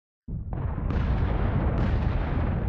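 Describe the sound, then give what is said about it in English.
Artillery guns firing in the distance during a Civil War battle on a Sunday morning: a sudden loud blast swells into a dense, continuous roaring rumble, with further booms stacking on top and thickening the sound. “he's sitting down to breakfast with his staff when he hears the guns in the distance.”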